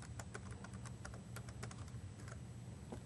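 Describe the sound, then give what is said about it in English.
Typing a password on a computer keyboard: a quick, irregular run of many light key clicks, faint and steady throughout, with no talking. “And I'll put in my password here. I think I typed that wrong.”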